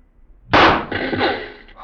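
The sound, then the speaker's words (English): Rifle shot fired at a target during Mounted Police shooting practice: a single sharp, loud crack followed by a long rumbling tail that slowly fades. “Wait. There's one of our targets still up out there.”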